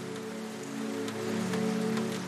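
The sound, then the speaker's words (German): Rain falling on window glass makes a soft, continuous patter of drops, with a low, sustained tonal hum running steadily underneath. “Der Regen wirkt wie ein Schleier, der die Welt draußen in eine friedliche, fast unwirkliche Atmosphäre hüllt.”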